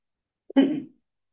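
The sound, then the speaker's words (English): A single brief nose blow: a short, faint honking puff lasting under half a second, with a tiny click just before it, alone in silence. “I got to blow my nose.”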